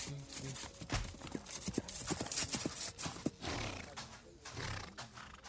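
Hooves clip-clopping as a horse comes running, a quick, uneven patter of faint hoofbeats repeating across the whole stretch.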